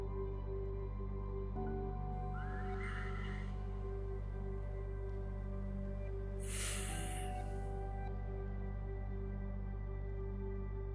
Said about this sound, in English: And on the out breath, whatever it is, we're just going to let it all go just for right now.